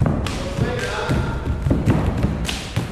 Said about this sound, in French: Cette danse est rythmée par les coups de pieds nus sur le sol.